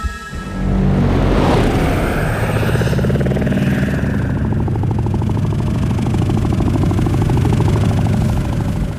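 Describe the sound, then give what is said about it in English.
Throbbing, helicopter-like whir of a sound effect built from real beetle recordings. The loud, steady pulsing drone with a rough buzzing texture starts abruptly and holds without a break to the end. “It will sound close to the spirit of an helicopter. It must not sound like an helicopter, but in the same family. And they came with those, the exploration of, they use real beetles and sound and the familiarity.”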